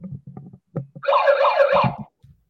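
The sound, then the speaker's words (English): A brief warbling siren wail rises and falls for about a second, sounding loud and alone after a few low, muffled thumps. “your daily siren, which is a noun. Not a bird.”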